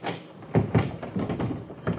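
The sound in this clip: A locked door is tried and rattles, with a few sharp knocks and thumps in quick, irregular succession, fairly loud and without talk.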